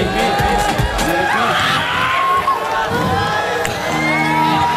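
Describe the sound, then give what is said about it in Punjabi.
Loud, continuous crowd cheering and whooping from an audience at a live Punjabi singing event, with shouting voices throughout and no distinct claps standing out. “ਤਾੜੀ ਤਾਂ ਮਾਰ ਦੋ ਮੇਰੇ ਵੀ ਪਿੱਛੇ ਵਾਲੇ ਤੁਸੀਂ ਮਾਰ ਦੋ ਵੀ ਆਈ ਪੀ”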